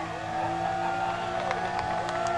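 A car engine revs hard during a burnout, the car enveloped in tire smoke and creeping forward slightly; a continuous loud roar with shifting, wavering engine pitch throughout.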